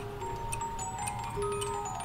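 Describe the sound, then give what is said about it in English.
Cuckoo clock sounding its call and playing a short tune, with sustained chiming notes held over a soft background and only faint ticking. “And this is a cuckoo clock, and it will cuckoo and then play a little song for you.”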